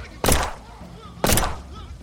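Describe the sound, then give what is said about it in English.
A smoke bomb goes off in an audio drama: two sharp, loud bursts about a second apart, each followed by a short hissing decay. “Well, what's that? A smoke bomb! Get him! Capture Dalton! He's in this fog somewhere!”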